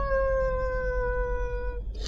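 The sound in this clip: A cat gives a single drawn-out meow, clear and tonal, holding a steady pitch that sags slightly before it breaks off, with no other sound around it.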